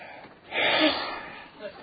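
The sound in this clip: A man imitates the heavy, dismayed exhale of someone taking in a church needing huge repairs: one long breathy whoosh that swells, holds, then fades, followed by a brief faint puff.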